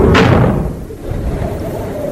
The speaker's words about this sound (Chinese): 铁门在他们身后重重地关上了。